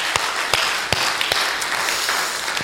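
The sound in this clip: An audience at a church service claps in a noisy wash of applause, with a few sharp, louder claps standing out.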